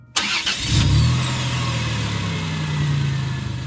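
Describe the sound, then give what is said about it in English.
A car engine starts and the car begins to drive off: a sharp burst at ignition, then a steady low engine hum that briefly climbs in pitch as it revs and holds loud to the end. “And I start driving because he hasn't told me not to.”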